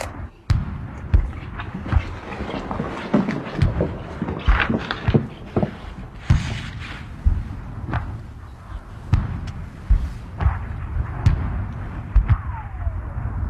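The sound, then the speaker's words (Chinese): Artillery bombardment in a war drama: many heavy booms and thudding impacts land in quick irregular succession over a continuous low rumble, loud throughout. “传我的命令。三分钟以后停止炮击，敢死队给我冲上去守玉米。”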